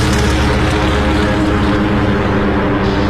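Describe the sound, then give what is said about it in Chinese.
A torpedo bomber squadron taking off to attack a fleet, heard as a loud, steady propeller-engine roar. The drone is dense and continuous for the whole stretch, with no breaks and no voices. “摄影师拍完录像后，他们就起飞去袭击日军舰队了。首先起飞的是第八鱼雷轰炸机中队。”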